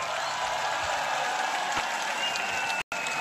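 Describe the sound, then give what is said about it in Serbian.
A concert audience at Ušće in 2024 gives continuous, even applause. The dense clapping is briefly cut off near the end. “Jedan aplauz za Vladu, molim vas.”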